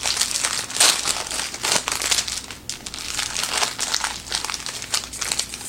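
Crinkly wrapper of a sugary snack treat being torn open, with many sharp crackling rustles in an uneven, fairly loud run lasting several seconds.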